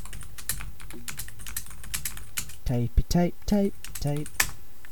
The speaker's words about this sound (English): Let me Google that. Are you Googling it?